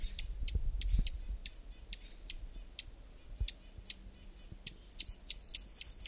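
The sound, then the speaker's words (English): A Hermit Warbler sings close by, its high, thin notes bunching into a quick song near the end, while a steady series of sharp, evenly spaced clicks ticks through the whole stretch. “Hermit Warbler right nearby.”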